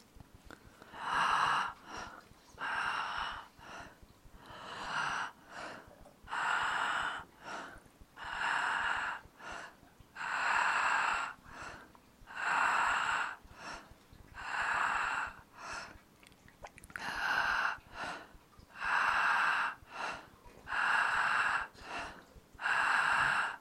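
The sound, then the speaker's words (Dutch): Slow, deep breathing into the belly, repeated in many even cycles of airy, soft inhales and exhales with short gaps between them, faint and steady throughout, with no talk. “En we gaan door met in onze buik te ademen.”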